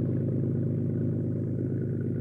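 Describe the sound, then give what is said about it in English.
A schooner's diesel engine runs under way up the Mississippi River, giving a steady, low, continuous rumble with a faint clattering texture and no voices. “Right now, the porpoise, under diesel power, Sam's schooner, is heading up the Mississippi River.”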